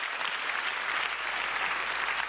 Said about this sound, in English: Give the Lord a clap of it.